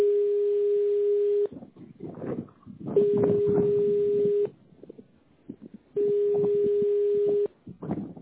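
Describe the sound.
A telephone ringback tone sounds while a call waits for an answer: three long, steady, mid-pitched beeps of about a second and a half each, evenly spaced, with other faint sounds filling the gaps.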